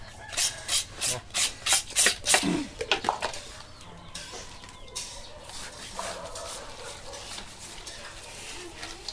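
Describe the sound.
Food is rubbed with salt before frying. A quick rhythmic run of rasping scrubbing strokes comes first, then softer, irregular rubbing and scraping continues at a lower level.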